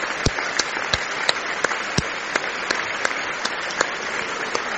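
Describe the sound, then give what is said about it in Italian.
An audience applauds at the curtain call of Bizet's Carmen at the Teatro Lirico in Cagliari, a dense, steady roar of clapping with many sharper individual claps standing out. “Vediamo altro inchino, altri applausi.”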